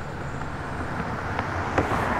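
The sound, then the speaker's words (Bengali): A car speeding along in the evening: steady, broad road rumble and engine noise with no breaks or changes. “সন্ধেবেলা দুজনে গাড়ি করে নতুন ঠিকানার উদ্দেশ্যে রওনা দিল গাড়ি ছুটে চলেছে দ্রুত গতিতে”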